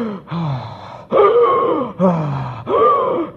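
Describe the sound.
Short, laboured breathing of a runner about two tenths of a mile in, legs aching: rapid, loud gasping breaths in and out, in a steady rhythm, with no talk.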